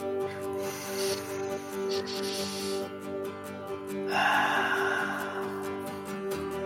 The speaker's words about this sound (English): Let's you and I take a deep breath and end this on that today.